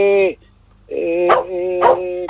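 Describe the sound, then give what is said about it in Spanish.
A dog barks and yelps as someone arrives, in a few loud, tonal, whining bursts, with no talk over it. “Pero ¿a quién le está ladrando? Porque algo está pidiendo, algo está avisando.”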